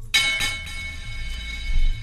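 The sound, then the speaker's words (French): A small bell is struck sharply, its bright, high ring sustaining and slowly fading over low background noise, with a few lighter jingles following. “Allez, vas-y, enchaîne-moi la clochette quand même.”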